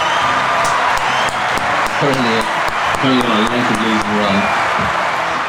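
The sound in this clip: Studio audience applause for a champion horse-racing tipster, a steady roar of clapping with voices calling out and talking over it.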